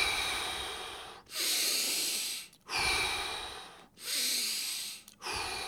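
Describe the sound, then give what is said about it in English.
Deep breaths drawn in and let out, a few long, airy, hissing cycles in an even rhythm with short pauses between them and no talking. “So it's a deep breath in.”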